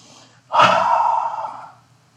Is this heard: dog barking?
no